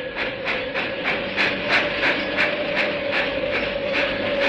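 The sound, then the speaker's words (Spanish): A train arrives at a railway station: a steady stream of rhythmic chugging pulses, many in quick regular succession, sits over a continuous rumble and a sustained steady tone. “Un único pasajero se apeó del tren en la estación de ferrocarril de Bramblehart.”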